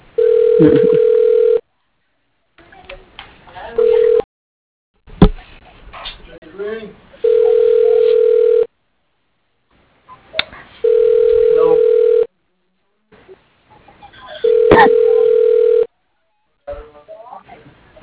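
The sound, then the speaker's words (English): Ringing tone of an outgoing telephone call: a steady mid-pitched tone switches on and off in several regular bursts, with people talking in the gaps between rings. “Can let it ring till someone comes to help us, all right?”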